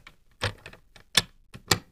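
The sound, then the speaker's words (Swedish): A padlock being pressed shut, heard as a few sharp, dry clicks and clacks spaced irregularly, with quiet gaps between them. “Att du trycker till där på det där låset, på ett sånt där hänglås.”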